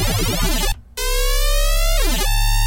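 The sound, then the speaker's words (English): A square-wave synth with randomized partials and light unison detune plays through a phaser set to deeper, hertz and octave mode. The buzzy, loud tone has sweeping comb-like phasing and cuts out briefly near the first second, then returns with further sweeps. “Set the phaser mode to deeper and set it to hertz mode. On octave mode, it sounds like this.”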